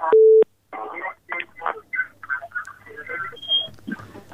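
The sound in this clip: A single telephone beep on a radio call-in line after a dropped call: one loud, steady, mid-pitched electronic tone lasting under half a second, followed by people talking.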